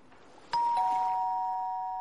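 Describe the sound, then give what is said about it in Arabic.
Doorbell ringing at the door of a gathering: a loud two-tone ding-dong, the second tone slightly lower, both ringing on in a bright sustained chime that fades slowly. “دق جرس الباب”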